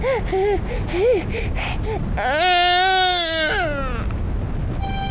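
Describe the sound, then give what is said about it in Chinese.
A child crying, with a few short sobbing cries followed by one long, loud, high-pitched wail that fades into quieter sounds. “哦，好了，不哭啊，不哭。”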